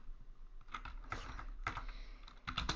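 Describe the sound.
Keyboard typing at a computer during a livestream: several clustered bursts of quick clicking keystrokes with short pauses between them, moderately loud, with no voices.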